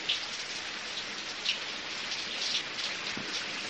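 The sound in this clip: Rain falling in a steady, dense hiss, even in loudness throughout, with no voices.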